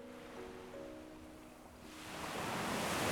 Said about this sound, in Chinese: 是不是能听到海浪声就在耳边，海水流过身体，细软的沙子